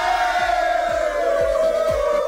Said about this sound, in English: You get a cheer for that. Yay!